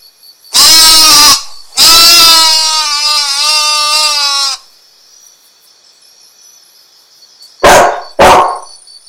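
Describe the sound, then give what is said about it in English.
Dog vocalising: two long, wavering, tonal howl-like calls, the second stretching for several seconds, then after a quiet pause two short, sharp barks in quick succession. Loud, with no voices. “Anjing. Anjing. Dog. Dog. Kalbun. Kalbun.”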